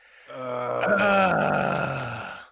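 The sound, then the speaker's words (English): A man's long groan, a voiced and sustained moan that holds for about two seconds at a fairly steady pitch and then fades out. “Wait, why am I groaning? It's my time to shine!”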